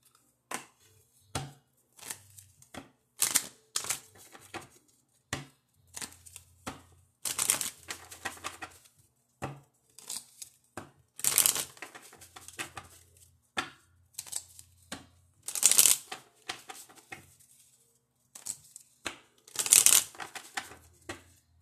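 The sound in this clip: A deck of healing cards being shuffled: many crisp riffling and slapping bursts of varying loudness, separated by brief pauses, with no talk.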